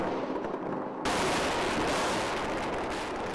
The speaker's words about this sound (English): President Bush orders airstrikes over Baghdad.